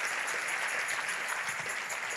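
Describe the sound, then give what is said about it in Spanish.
Applause from a church audience during a Spanish-language sermon, a continuous patter of many hands clapping, fairly faint and steady from start to finish, with no speech over it. “¿Alguien dice amén en esta hora? Si ese es el aplauso, dáselo mejor al Señor.”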